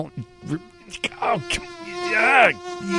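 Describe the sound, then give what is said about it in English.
Mosquitoes buzzing: a steady, high, whining drone with rich layered tones that holds throughout and swells louder toward the end. “Insect Repellent Day. You're going to need it if there's mosquitoes around.”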